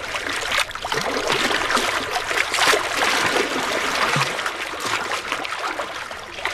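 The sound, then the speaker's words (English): Water of Lake Michigan splashing against the rocks at Promontory Point: a continuous, hissing wash of lapping and splashing water that holds steady throughout, with no voices. “So it's no surprise that the sound you're hearing right now is one of our most popular requests. It's the soothing sound of Lake Michigan.”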